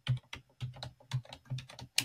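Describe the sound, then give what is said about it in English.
Typing on a computer keyboard: a short, soft run of separate keystrokes at an uneven pace, ending on one sharper click. “Okay, now I'm gonna type this in here.”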